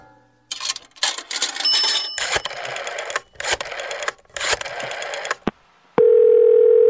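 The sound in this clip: A telephone dial tone sounds as a call is placed: a steady, even, single-pitched hum lasting about a second at the end. It follows a run of loud, choppy bursts separated by brief gaps.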